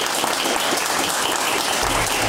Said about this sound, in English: a big round of applause, please, for Anna Helvig.